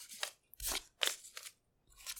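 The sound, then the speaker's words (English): Something ripped up by hand with crunchy, crackling tears, heard as several short, quiet bursts separated by brief pauses. “Here, I'll rip up these ones dramatically.”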